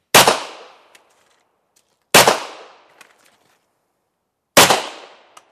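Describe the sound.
Three loud pistol gunshots, each a sharp crack that decays into a fading ring, spaced roughly two seconds apart with quiet between them.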